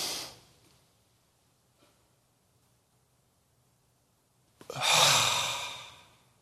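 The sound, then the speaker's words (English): Breathing exercise with a deep breath in through the nose, a silent hold of about four seconds, then a long, loud, airy exhale that swells and fades. “We're going to breathe in with our nose. And then hold it for 4 seconds and breathe out.”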